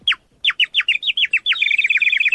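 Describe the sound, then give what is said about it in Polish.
A traditional handmade clay bird whistle at an Emaus folk fair gives many shrill, quick chirps with falling pitch sweeps, then merges into a continuous high, bubbling warble. “To jest ptaszek gliniany, ręcznie wykonany, tradycyjny, z Emausu.”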